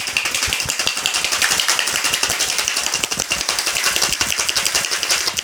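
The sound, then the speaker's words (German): Ice cubes, not crushed ice, rattle hard inside a cocktail shaker while an espresso martini is shaken, producing a fast, steady, rhythmic clatter of many bright impacts that continues throughout without talk. “Ich habe jetzt hier einfach einen Cocktail Shaker. Und du hast das Eis in Würfeln dann rein. Genau, ich habe hier Würfeleis genommen, kein Crushed Eis. Ja. Jetzt ist es wichtig, dass du halt hart shakest.”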